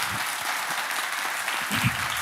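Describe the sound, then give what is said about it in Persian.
Audience applause: a dense, steady patter of many hands clapping throughout, with a slightly louder burst near the end. “تشویق داشته باشه، من ببینم چقدر داشته.”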